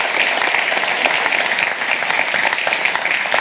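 An audience applauds to welcome two guests coming up on stage, a dense, loud, steady burst of clapping that stays even throughout.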